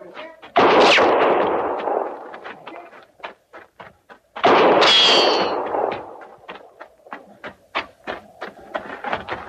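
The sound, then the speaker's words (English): Gunshots in an audio drama as a soldier shoots a horse: two loud blasts that ring and slowly fade, with many sharp metallic clicks and clatters scattered between and after them. “The shotters have got no call to do that. Now, she's as much army as we are. No reason for him shooting a horse.”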